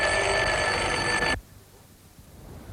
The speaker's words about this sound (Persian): ناگاه زنگی در بلند شد.